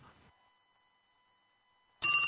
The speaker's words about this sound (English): oh, I'm getting a phone call.